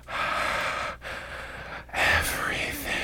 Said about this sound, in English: me just breathing hot stoner air down your neck